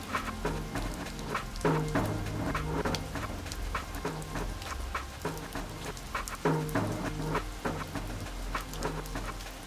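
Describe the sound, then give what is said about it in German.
Fine rain pattering outside, a steady soft hiss of drops with scattered sharper taps throughout, fairly quiet and with no talking. “draußen prasselt der Regen ganz fein.”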